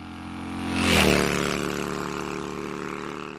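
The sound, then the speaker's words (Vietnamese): A motorcycle engine revs loudly in an alley lane lined with flame trees. A harsh, roaring burst swells to a peak near the first second, then holds as a sustained, slightly fading drone. “bỗng nghe tiếng xe máy rú lên dữ tợn, tiếng rú quen thuộc của con hẻm cây điệp.”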